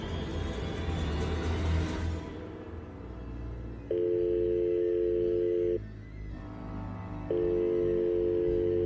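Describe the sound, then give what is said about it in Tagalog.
Ringback tone of an unanswered telephone call: after a muffled rumble, two steady low buzzing rings, each about two seconds long, are separated by a short silent pause. “Hindi ako tumigil sa pagtatangkang tawagan si Brian para sabihing mag-ingat”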